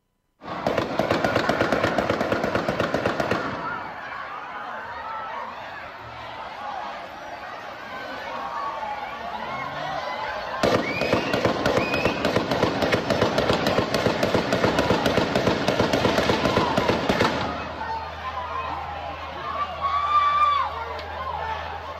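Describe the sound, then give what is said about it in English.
Gunshots are fired along a parade route in two long bursts of rapid, crackling shots separated by a pause of several seconds, with crowd voices and chatter heard between and after the volleys. “Right, 3 seconds, 11 shots, another moment goes by, another 23 shots as I counted it.”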